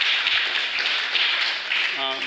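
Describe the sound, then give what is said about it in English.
Audience applause at a talk on activism, a steady dense patter of many hands clapping throughout, with a brief voice near the end. “Sure, go ahead and applaud yourself.”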